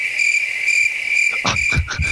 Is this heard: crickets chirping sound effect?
yes